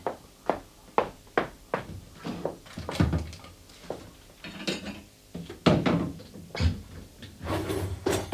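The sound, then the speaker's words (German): Knocks and clicks as a cupboard is opened to take out a plate: many short, sharp wooden thunks and small clattering taps in an irregular rhythm, moderately loud, with no voices. “Also nimm dir einen Teller. Sie sind oben im Schrank.”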